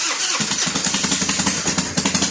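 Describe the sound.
A voice imitates a motorcycle engine with the mouth: a sputtering start, then a loud, steady, rhythmic putter like a revving bike, heard alone.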